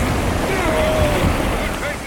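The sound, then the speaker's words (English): Ocean waves crash against a ship near an island with wind noise: a loud, steady roaring wash of surf that barely lets up throughout. “We'll be sunk to the bottom after one wave. And here they come. Brace yourself.”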